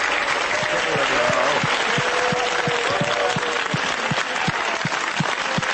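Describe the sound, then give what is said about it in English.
Applause from a live audience in Billings, Montana, clapping for their home town at a show. The clapping is loud, dense and steady throughout, with no voices over it. “It's a bit self-centered, isn't it? You clap a little harder for yourself than for the show host.”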